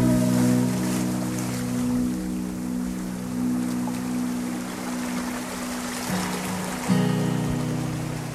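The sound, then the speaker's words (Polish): Steady wash of sea waves, a broad continuous hiss, blends with a gentle guitar holding soft sustained notes beneath it. The level stays even throughout, and there are no voices. “Nie chciałam zacząć mówić na tym szumie fal i delikatnej gitarze”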